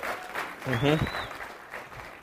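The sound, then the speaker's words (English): Audience applause for an audience member being thanked, a brief wash of clapping that fills the short clip, with a voice briefly heard over it near the start. “We want to thank him. Yes, you can give him a hand.”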